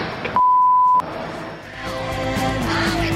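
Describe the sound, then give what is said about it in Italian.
A censor bleep, a single steady high-pitched tone lasting just over half a second, cuts in over a blasphemous oath in a recorded passage, with the surrounding audio continuing before and after it. “il pezzetto è questo, col bip sulla bestemmia, ovviamente.”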